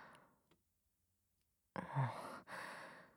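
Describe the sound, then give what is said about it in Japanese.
Slow, deep breathing, heard alone after a quiet pause: two long, soft, airy breaths in close succession, a full exhale and an inhale. “限界まで息を吐いて、ゆっくりと吸い込んで、呼吸を落ち着けろ。”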